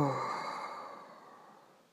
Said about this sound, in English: Exhale.